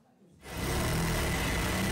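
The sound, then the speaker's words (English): Sewing machines run in a Cairo workshop making Egyptian national flags: after a brief quiet moment, a steady mechanical whir starts abruptly and holds at a constant level to the end. “The deeper Egypt go into this World Cup, the busier these sewing machines become. Inside this Cairo workshop, they can't make the national flag quick enough.”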